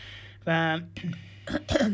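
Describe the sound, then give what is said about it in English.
Throat clearing by a person with a frog in the throat: a short voiced sound, then a few raspy, uneven clearing bursts. “Just clearing my throat. Just got a bit of a frog in my throat at the moment.”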